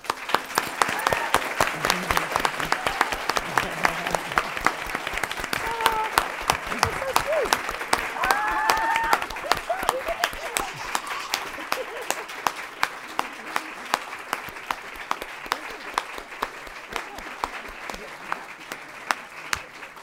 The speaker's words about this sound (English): radio audience should be aware that that was a standing ovation.